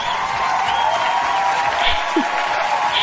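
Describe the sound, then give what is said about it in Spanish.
Applause with crowd noise, steady and fairly loud throughout, clapping to celebrate a music group's first full album release. “Vamos a aplaudir.”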